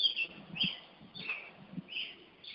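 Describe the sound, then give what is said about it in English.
Birds chirping: faint, high, short chirps repeat several times in a loose rhythm, with soft low thumps beneath them. “Hear the birds chirping. That's a pleasant sound.”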